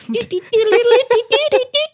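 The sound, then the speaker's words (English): A voice imitates a bat twerking with a quick string of short, bouncy vocal bursts. The bursts are squeaky and nasal, held on a fairly steady mid pitch, with brief gaps between them. “That's the sound of a bat twerking.”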